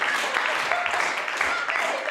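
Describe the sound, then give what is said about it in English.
Audience applause at a live improvised variety show in a theater: dense, steady clapping that fills the whole stretch at an even level, with voices mixed in. “Come on, can you all clap for us just like this?”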